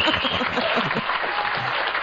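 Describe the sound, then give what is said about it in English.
A crowd gives a woman a hearty round of applause, with full, continuous clapping that stays steady and loud for the whole stretch. “Give her a real round of applause.”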